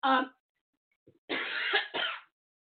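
Coughing and throat clearing: a short rough burst, a pause, then a longer rasping bout that breaks into two harsh pushes, loud and with no talk.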